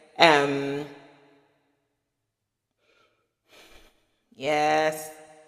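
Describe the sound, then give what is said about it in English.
Deep breaths taken during a guided breathing pause: a loud, partly voiced, gasping inhalation that fades out, a long quiet stretch, a soft short breath, then another strong breath. “I'd like to pause for a moment and just have you take 3 deep breaths.”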